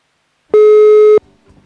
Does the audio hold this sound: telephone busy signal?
yes